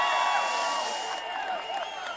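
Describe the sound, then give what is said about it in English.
A political rally crowd cheering and applauding, a dense continuous roar of many voices and claps that eases slightly toward the end. “I really, really appreciate this tremendous crowd.”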